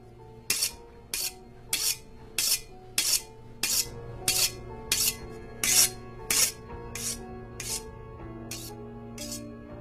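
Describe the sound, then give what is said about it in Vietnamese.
A knife scrapes against a sharpening stone in a steady, rhythmic series of bright rasping strokes, roughly every half second, over a low constant hum. “An vừa liếc liếc con dao vào cái cục mài. Âm thanh nghe rợn cả người.”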